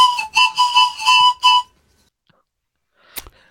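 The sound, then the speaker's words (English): Whistling comes as a quick series of short, bright, high notes, then gives way to silence, and a brief faint noise follows near the end. “combining curse words and our favorite whistles”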